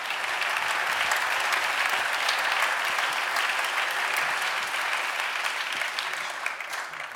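Steady applause from a concert audience making noise for the lighting crew, a dense, loud wash of clapping that runs unbroken from start to finish with no speech over it.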